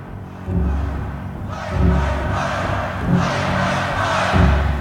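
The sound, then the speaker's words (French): A concert audience at a Doors show protests with a sustained roar of shouting voices that swells and eases several times without pause. “Contestation dans le public. Ils ne veulent pas qu'ils parlent. Ils veulent que ça joue, qu'ils fassent le show. Ils veulent les Doors et la Rockstar.”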